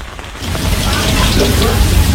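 Steady rain falls as a dense, continuous hiss that swells slightly after the opening moment and then holds without a break.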